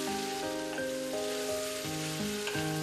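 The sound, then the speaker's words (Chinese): Duck sizzles as it is stir-fried over high heat with sour liquid and duck blood. The frying gives a steady, loud, crackling hiss throughout, with no talk. “待鸭肉吸饱酱汁，再次回炉大火翻炒，让酸水、鸭血与鸭肉的融合达到极致。”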